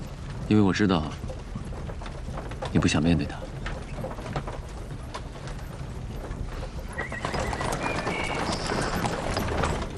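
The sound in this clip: A roomy horse-drawn carriage prepared for a long journey: two loud whinnies ring out early, then a steady rumble of hooves and wheels carries on beneath.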